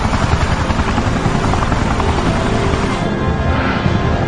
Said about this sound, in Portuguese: e daí no final do jogo eles fogem de helicóptero